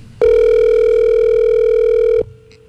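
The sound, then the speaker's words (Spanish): A telephone ringing on the line: one steady, loud, buzzing tone that holds for about two seconds and then cuts off, with nothing else heard. “Ahí está timbrando.”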